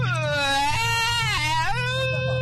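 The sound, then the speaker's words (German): A person's voice imitates a crying baby, giving a continuous high, wavering wail whose pitch slides and dips for about two and a half seconds. “Aber mal so richtiges Babygeheule kriegen wir jetzt auch noch hin.”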